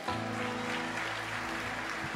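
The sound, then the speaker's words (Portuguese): Church applause for the Lord: quiet, continuous clapping at an even level with sustained low tones underneath throughout. “Você pode aplaudir ao Senhor?”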